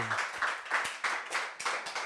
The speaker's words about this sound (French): Est-ce que tu peux acclamer le Seigneur? Wow.